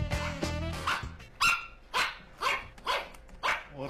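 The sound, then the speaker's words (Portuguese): A small dog, a pug, barks repeatedly in sharp, fairly high yaps at a steady rhythm, with no other sounds. “Cachorro pequeno. Cachorro pequeno. É um pug.”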